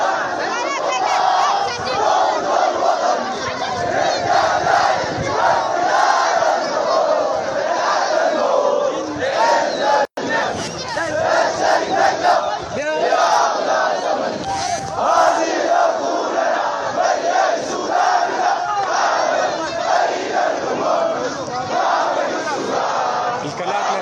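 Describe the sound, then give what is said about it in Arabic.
Thousands of protesters in Madani, Al Jazirah state, chanting slogans against a military coup: a loud, continuous mass of shouting voices in rhythmic chants, cut by one very brief gap partway through. “وفي ولاية الجزيرة خرج آلاف المتظاهرين في مدني تنديدا بالانقلاب العسكري، وردد المتظاهرون هتافات مناوئة”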